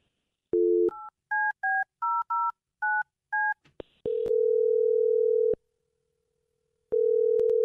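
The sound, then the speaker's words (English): A telephone being dialed to call a man: a dial tone, then a quick run of seven keypad tones, followed by the ringback tone sounding twice with a pause between. “All right, I'm going to dial him right now.”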